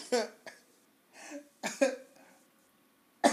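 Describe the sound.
Harsh coughing after choking on exhaled smoke: a few sharp, raspy bursts broken by short pauses and breathy gasps, fairly quiet and close.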